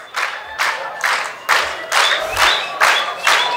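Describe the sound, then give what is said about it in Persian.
Loud rhythmic clapping from an audience at a Persian-language talk. Many people clap together in a steady, even beat of strong bursts, with some crowd noise between claps. “ممنون، اگه برای من دست میزنید ممنون.”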